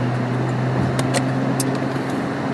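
Steady engine and road drone from a car driving onto a freeway, an even, continuous rumble with a few faint clicks on top and no talking.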